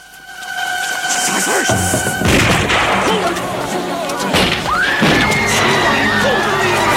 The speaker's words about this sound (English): Men from the Salvation Army band then proceed to light grenades and to hurl them onto the scaffold.